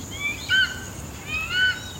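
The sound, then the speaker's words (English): A seagull calls in two short bursts of high, thin cries, faint over a quiet background. “What's that? It sounded like a seagull. I think it is a seagull.”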